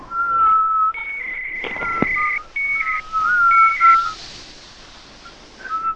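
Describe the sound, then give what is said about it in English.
People whistle together during a prank phone call to a fast-food restaurant. A few fairly loud, steady notes are held at two pitches, and a short sharp click falls near the middle. “Somebody whistle with me.”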